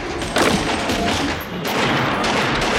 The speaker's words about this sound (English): fires an automatic rifle, standing before a wall of weapons and ammunition.